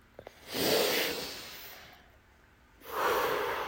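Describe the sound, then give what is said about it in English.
Slow, deep breaths during a guided breathing exercise: two long, airy, rushing breaths separated by a quiet pause, with a couple of faint clicks just before the first. “Two more. Can you do one more big breath?”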